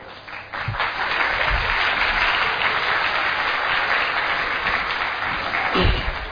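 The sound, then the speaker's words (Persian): An audience applauding during a talk, with dense, steady clapping that starts abruptly and carries on evenly for several seconds, punctuated by a few heavier thumps. “فقط برای چی دست دادین من متوجه نشد.”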